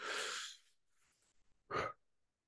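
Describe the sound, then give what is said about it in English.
A deep cleansing breath taken during a guided mind-clearing exercise: a loud, rushing breath sound, a quiet pause, then a second short, forceful burst of breath. “Now, in order to do this, let's take a deep cleansing breath.”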